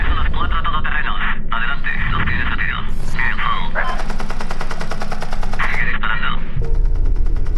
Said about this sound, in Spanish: Hoy se ha filtrado un vídeo que muestra lo que parece un helicóptero militar estadounidense abriendo fuego sobre periodistas desarmados.